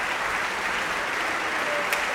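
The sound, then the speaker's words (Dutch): Concert audience applause for the basso continuo section at an early music festival in the large hall of Tivoli Vredenburg: a steady, dense patter of many clapping hands, even in level throughout. “Dit is even applaus voor de basse continuo-sectie. Torbe, Fleur de Gamba, cello en clavecimbal.”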